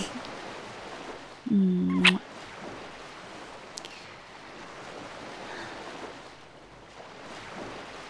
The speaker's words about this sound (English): There's something so comforting about this. The inevitability of the incoming tide.